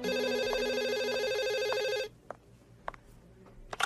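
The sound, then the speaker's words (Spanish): An electronic telephone rings loud and steady for about two seconds, then cuts off, leaving a few faint knocks and clicks. “en el momento preciso en que sonaba el teléfono”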